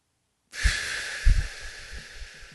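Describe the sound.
A single deep breath is exhaled slowly during a guided breathing exercise. The airy, breathy hiss begins abruptly after a moment of silence and gradually fades, with a few soft low puffs.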